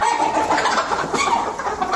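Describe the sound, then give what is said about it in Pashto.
Chickens cluck continuously on a small family poultry farm in the Sarmurghab area near Tarinkot, Uruzgan, where the flock was struck by a viral disease. The clucking is busy and overlapping, a steady chatter from many birds with no talking. “تازه یې د بیکاری له وجې د کورنۍ چرګانو فارم جوړ کړي.”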